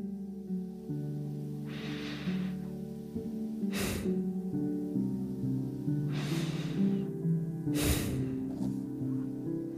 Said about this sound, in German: Und dann, wenn du bereit bist, nimm noch 3 tiefe, ganz bewusste Atemzüge.